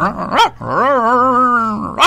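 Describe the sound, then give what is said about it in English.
A human voice imitates a Chihuahua–St. Bernard mix dog, giving a short yelp, then a long, drawn-out wavering howl-like bark, then another short yelp. The voice is loud and heard alone, with no words. “what kind of a dog is that? Oh, that was a Chihuahua St. Bernard combination.”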